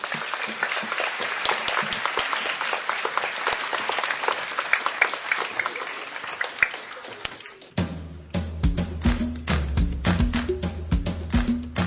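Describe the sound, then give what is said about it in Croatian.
Audience applause for a parish children's choir at a church event: dense, steady clapping for about eight seconds, after which the choir's music begins with sung, tonal notes and a regular beat. “Pozdravimo ih velikim pljeskom.”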